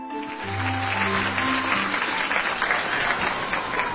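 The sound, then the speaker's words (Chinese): Audience applause at a live crosstalk comedy performance: dense, steady clapping that swells within the first half-second and stays loud for the whole clip, with a few sustained tones fading out beneath it in the first two seconds. “感谢大家热烈的掌声啊！”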